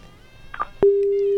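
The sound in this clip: Telephone busy tone after a phone call is cut off: a steady, single-pitched electronic tone that starts abruptly after a brief faint blip and holds at constant loudness to the end.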